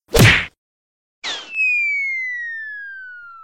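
A sharp thwack of a kick sends an object flying over palace walls: one hard hit, a brief pause, then a short burst that becomes a long, steadily falling whistle, a cartoon-style sound alone with no talk.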